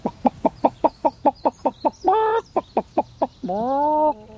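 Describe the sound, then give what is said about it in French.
A rooster clucking: a rapid, even run of short, sharp clucks, broken by two drawn-out tonal calls. The second call rises slightly and then holds. “on va rien y faire parce qu'il y a le coq là qui nous surveille”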